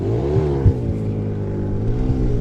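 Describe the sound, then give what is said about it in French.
Newly bought snowmobile with a chip key being started across a suspension bridge: a steady low engine drone with slight wavering in pitch and a couple of small bumps, with no voices. “De l'autre côté du pont, un motoneigiste tente de démarrer sa machine.”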